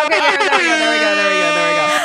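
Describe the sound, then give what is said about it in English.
An air horn sound effect blares loud and steady for about two seconds as one sustained, brassy tone rich in overtones. It wavers slightly at the start. “Where are you? Air horn.”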